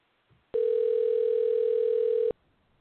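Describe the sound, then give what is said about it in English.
A telephone dial tone sounds while a call is being placed: one steady, unbroken mid-pitched tone starts abruptly, holds for nearly two seconds and then cuts off cleanly, with no talk. “so let's give SEIU a call and leave a message.”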